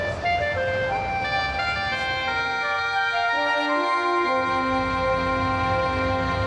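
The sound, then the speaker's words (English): A van engine drones loudly while driving, its tonal whine steady at first, then dropping in pitch midway before climbing again. “Hold that van. Oh, we're going to miss it. Hey, wait for it!”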